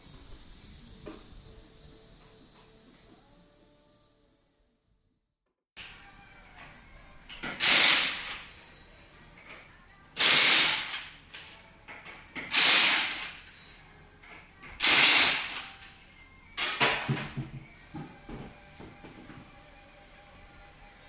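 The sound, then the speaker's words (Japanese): Lug bolts are being removed from a car tyre at a repair shop, heard as several loud, harsh rattling bursts of a power tool separated by short pauses, after a quieter stretch at the start. “ファンキーなミュージックの向こうに聞こえてまいりました。タイヤのボルトを外す音、響きますね。”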